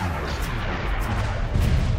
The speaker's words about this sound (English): I just unload with this blast of energy that rips across the ground.